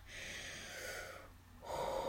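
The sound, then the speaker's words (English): A person draws a slow, deep breath in, a faint airy rush of inhalation lasting about two seconds with no talk over it. “Take a deep breath. Breathe in.”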